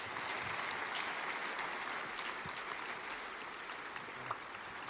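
Steady applause from a church audience welcoming a guest pastor at a morning service, a dense, even patter of many hands held at a moderate level throughout.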